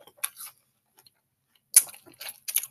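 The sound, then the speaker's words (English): Crisp crunching as someone bites and chews an apple while eating on a break: a few short, sharp bursts separated by near silence, quiet overall. “this apple good as hell. hmm Don't mind me. I'm on break right now, so just eating some food.”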